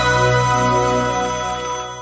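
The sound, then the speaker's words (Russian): A telephone rings for an incoming call with a steady electronic ringtone of layered sustained tones, loud at first and easing off slightly toward the end, with no voices. “Звонок эксперту на радиомарафон.”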